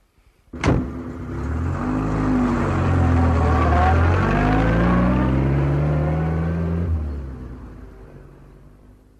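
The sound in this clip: A car drives off: an abrupt engine start, then a steady low drone whose pitch climbs as it accelerates. It holds loud for several seconds before fading away.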